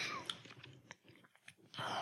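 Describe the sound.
Sipping a hot pomegranate drink, with noisy slurping bursts at the start and end and softer, scattered mouth and swallowing sounds in between, all fairly faint.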